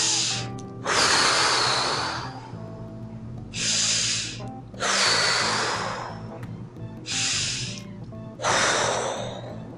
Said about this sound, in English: Take deep breaths, cleansing breaths, just